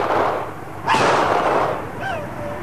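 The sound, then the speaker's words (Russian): A pistol shot fired during a struggle, a single sharp burst with a short noisy tail rising out of a rumbling background. “Тот упал, но вывернул назад руку и выстрелил в Алого.”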